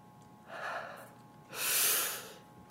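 A person takes a deep breath while trying to calm down in a tense moment. A softer breathy rush of air is followed by a longer, louder one, with no talk.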